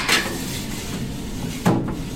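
Wooden clatter and scraping as traditional baguettes are unloaded from a deck oven in a bakery: a couple of brief knocks about a second and a half apart over a low, steady background.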